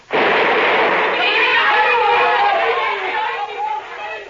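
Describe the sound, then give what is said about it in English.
A grenade explodes inside a motor launch: a sudden loud burst of rough, roaring noise that lingers for several seconds and eases off only slightly toward the end. “bit off the end of a grenade and threw it smack into our launch”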